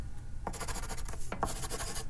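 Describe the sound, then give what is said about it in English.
Pencil scribbling on a piece of paper: quick, scratchy strokes in a rapid, uneven series, fairly faint. “She scribbled on a piece of paper and handed it to Daniel.”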